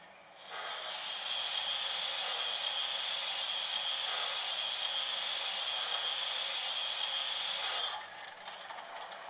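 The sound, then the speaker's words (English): An injector being turned on gives a steady, rushing hiss that starts abruptly, holds evenly for about seven seconds, then drops back to a quieter background hiss. “Turn on the injector.”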